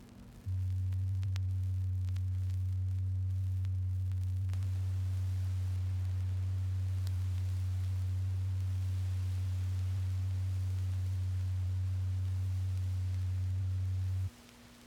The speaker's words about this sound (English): A satisfactory turntable should permit you to hear the following tone.